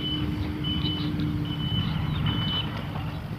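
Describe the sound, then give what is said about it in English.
A front-end loader grading sand and dirt backs up with its blade down, sounding about four long, high reversing beeps over a heavy, steady engine rumble. “He rides right up to the fence and then puts down his blade and then draws it backwards. That's what the beeping sound is.”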